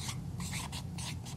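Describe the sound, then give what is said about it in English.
Writing on a board as the word "sacramentals" is written out: a few quick, scratchy strokes, faint and separated by short gaps. “This is one where I'm going to start to write things on the board for you. So I'm going to write sacramentals.”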